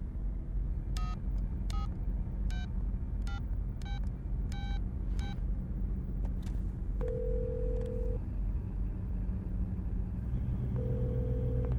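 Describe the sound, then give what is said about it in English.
A telephone number being dialed: seven short key-press tones in quick, even succession over a steady low rumble, followed by two longer, lower single tones. “Dial your number. Go ahead.”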